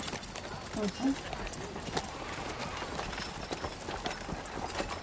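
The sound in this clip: Horse hooves clip-clop steadily as a horse pulls a wagon through narrow city streets, in an even rhythm beneath a person talking.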